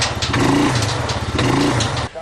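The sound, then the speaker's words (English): A four-wheeler's engine revs in two rising surges while its wheels spin without pulling a heavy machine part, giving a buzzing, strained tone before it drops back at the end. “The four-wheeler won't pull it. It's just spinning.”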